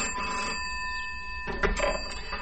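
A telephone rings with a steady electronic tone for over a second, then stops, followed by a few short knocks.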